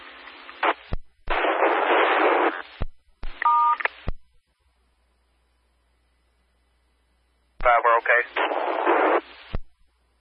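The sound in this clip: DTMF telephone tones sent over an amateur radio link: several noisy, band-limited transmission bursts carrying dial tones, then a long stretch of silence before another burst.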